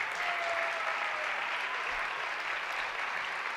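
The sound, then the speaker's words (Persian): Audience applause at a live performance, honouring a performer and his teacher. Dense, even clapping runs unbroken for the whole stretch at a steady loudness, with no voices standing out. “خواهش میکنم باز هم تشویقشون بکنیم”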